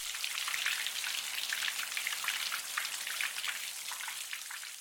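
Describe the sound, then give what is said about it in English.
Steady rain played as white noise, a dense continuous hiss of countless fine droplet patters with no pauses, fairly even in level throughout and heard alone without any voices. “And here's the sound of rain as white noise.”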